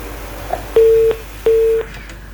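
Telephone line tones after a call is cut off: two sustained, mid-pitched steady beeps of equal length separated by a short gap, standing clearly over a faint background hiss.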